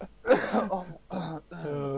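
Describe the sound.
Someone coughs and clears phlegm from their throat, a few rough, voiced bursts broken by short pauses. The throat sounds strained and raspy, and it is fairly loud and close.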